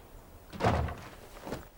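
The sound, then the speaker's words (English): A front door swings shut with a dull, heavy thud, followed by a softer second knock, against quiet background noise. “They close the front door behind them.”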